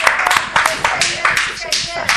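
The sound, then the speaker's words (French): A church audience claps in a brisk, even rhythm for the Lord Jesus, with sharp, loud claps repeating under voices throughout. “Acclamons le Seigneur. Amen. Klatschen wir für den Herrn Jesus.”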